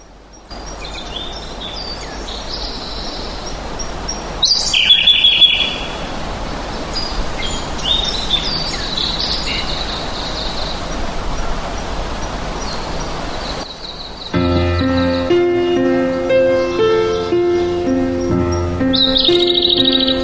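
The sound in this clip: Birds sing in open fields with many bright, high chirps and short calls scattered over a steady, hissy background.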